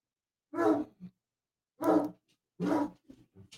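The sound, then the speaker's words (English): A dog barks three deep, loud woofs with long gaps between them, followed by a few faint short sounds after the last one. “And that is my dog. You know, I love my dog. You probably hear him on the stream”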